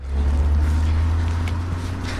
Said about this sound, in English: A car is driving along the road behind them.